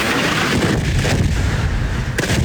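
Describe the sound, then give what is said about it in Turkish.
Explosions rise from all sides in dense, overlapping heavy booms that merge into a loud, continuous rumble. A sharper blast stands out near the end. “Patlama sesleri dört bir yandan yükseldi.”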